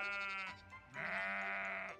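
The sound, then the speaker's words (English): Lambs bleating in spring lambing season: a couple of drawn-out, wavering bleats, the second longer and louder than the first, with no talk over them. “Now on RCD news, we're springing into lambing season.”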